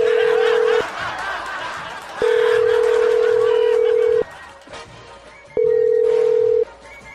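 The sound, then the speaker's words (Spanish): Telephone line tone in three steady, mid-pitched bursts separated by short gaps, the middle one the longest, heard over a noisy background. “Ok, voy a marcarle.”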